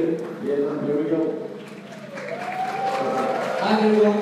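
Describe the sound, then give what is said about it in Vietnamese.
An audience claps to congratulate a presenter after a group idea pitch. The uneven clapping grows through the second half, with voices talking over it. “chúng ta cùng vỗ tay để chúc mừng cho anh nào”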